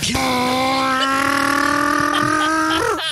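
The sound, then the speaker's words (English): A man's voice imitates his 1992 van's engine pulling away at about ten miles per hour. The hum is buzzy, sustained and steady, swells slightly near the end, then cuts off abruptly. “To be fair, in my van though, when I like take off and I'm going like 10, it's like.”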